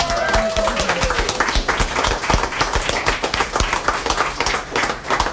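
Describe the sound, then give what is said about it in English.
Dense, steady applause from an audience clapping for a performer, with many overlapping claps that stay loud and continuous from start to finish. “Okay, let's give Juno another hand and bring up Bruce Cudmore.”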